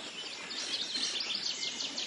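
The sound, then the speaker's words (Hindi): Birds chirp in a scenic landscape of rivers and plains: fairly faint, high, quick repeated twitters layered over one another in a continuous chorus. “इस सुरम्य वातावरण को और भी संगीतमय बना देता है पक्षियों का कलरव।”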